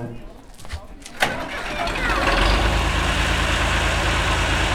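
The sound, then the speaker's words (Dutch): A tractor engine turns over as a procession sets off, with a sharp knock early on before the motor settles into a loud, steady low rumble that continues to the end. “Nou, de optocht gaat van start. Iemand heeft plaatsgenomen in de tractor.”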